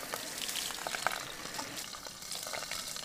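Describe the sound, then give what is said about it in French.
Running water pours in a steady, even splashing stream while something is gently rinsed, a continuous hiss that holds throughout without breaks. “Ensuite, on va rincer gentiment.”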